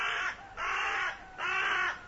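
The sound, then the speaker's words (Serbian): A flock of predatory crows cawing: three harsh, drawn-out caws, evenly spaced and of similar loudness, with short quiet gaps between them. “Bastinda ih opazi i pozva jato grabljivih vrana”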